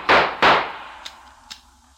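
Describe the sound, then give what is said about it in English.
Gunshots from a handgun fired at someone ducking into a hallway: two loud, sharp blasts in quick succession, each with a ringing, decaying tail, followed by two much fainter clicks. “I saw his gun move and I ducked back into the hall as he tried for me with the bullets he had left.”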